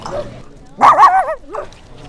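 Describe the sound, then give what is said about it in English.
Puppy yipping and whimpering while being held in a crowded puppy area at a conference wellness event: a short burst of high, wavering yips that slide up and down in pitch, followed by a softer whine. “And one of those things right now is you holding a puppy.”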